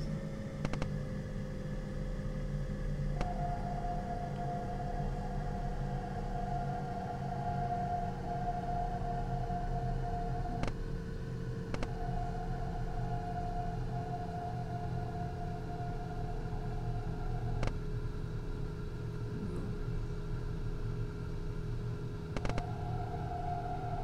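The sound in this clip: A train runs at speed, around 90 km/h, in a train simulator video game. A continuous rumble with a sustained tonal whine carries on throughout, broken by occasional sharp clicks.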